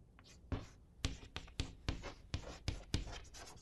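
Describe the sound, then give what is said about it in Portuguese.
A pen scratches on paper as the word "preguiça" is written by hand. Quiet, dry strokes come in a loose rhythm, each marked by a short, sharp scratch. “Não sei bom, vou escrever aqui a palavra, não é? Preguiça.”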